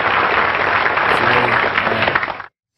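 A round of applause rises at once into dense, steady clapping, holding for a couple of seconds before cutting off abruptly.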